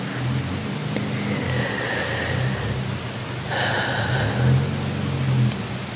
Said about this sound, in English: I apologize if you can hear the cars outside my apartment.